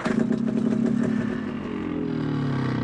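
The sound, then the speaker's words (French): An engine starter is operated, giving a steady buzzing, rattling mechanical whir at a moderate level, its tone sinking slightly lower toward the end. “alors ça, c'est le démarreur.”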